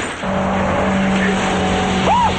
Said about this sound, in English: Bullets pelt the back of the package delivery truck as they drive away.